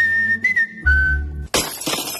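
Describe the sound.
Car windscreen glass shatters in a sudden, loud, bright crash with a scattering tail, preceded by a steady high whistling tone.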